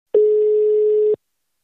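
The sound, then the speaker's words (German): A single telephone ringback tone sounds while someone is being called: one steady, mid-pitched beep lasting about a second, alone and without talk. “Wir klingeln mal durch.”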